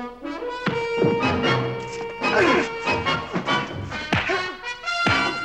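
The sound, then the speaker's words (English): Sharp slaps and thuds of blows and kicks as two starship captains fight, with a few hard hits cutting through a sustained tonal backing. “The two captains fight, exchanging vicious blows and kicks.”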